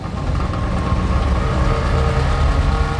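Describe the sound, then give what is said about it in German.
A large black BMW 5 Series car is driving, giving off a steady, continuous engine drone with a dense low rumble and even loudness throughout, with no voices. “Harald Schmidt parkt seinen kleinen Sportwagen unten und wir steigen in den großen schwarzen 5er BMW um.”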